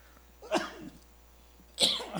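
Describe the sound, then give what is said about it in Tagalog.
Two short, harsh coughs from a person with an itchy throat after being out in the heat, about a second apart, each a sharp burst that quickly fades, with no talk around them. “pasensya na po. Inuubo tayo ng konti.”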